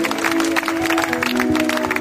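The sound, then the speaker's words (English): An audience claps at a church baptism service, with a quick, dense run of hand claps over a sustained held tone that continues throughout. “Let us clap unto the Lord.”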